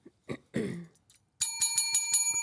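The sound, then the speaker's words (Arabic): A bell is pressed to answer in a quiz game, giving a bright metallic ring in rapid repeated strikes that carry on to the end. A few brief, soft sounds come before it in near quiet. “وأول واحد يجاوب يضغط على هذه لازم يضغط الجرس ويجاوب”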